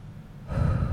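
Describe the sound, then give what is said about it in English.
A deep breath drawn in through the nose, one soft, airy inhale that swells louder about halfway through and holds briefly. “I'm going to take the breath in through my nose like I invite other people to do, in through the nose.”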